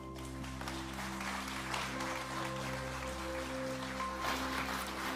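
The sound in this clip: Warm applause for two guest speakers at a service with ministers, faint and steady throughout, with a low sustained hum and tones underneath.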